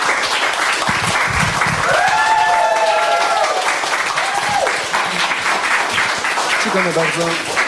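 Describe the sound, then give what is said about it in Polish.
Loud, sustained audience applause for a rock band after a spontaneous session at a sailing club in Sopot. Whoops and raised voices ride over the steady clapping throughout. “Brawa dla nich raz jeszcze, bardzo proszę.”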